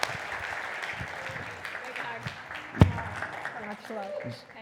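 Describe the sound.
Audience applause welcoming a member of parliament as a guest at a community gathering, a sustained patter of clapping with voices over it and one sharp, louder hit partway through.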